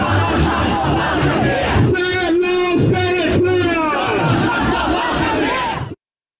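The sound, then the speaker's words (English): Crowd of protesters marching against the US President, Donald Trump: loud, continuous crowd noise with many voices chanting and shouting together, cutting off abruptly at the end. “his racism, his misogyny, his embrace of dictatorship, his contempt for democracy. And it's incredibly important that this behaviour is normalised, and that's why people are marching today.”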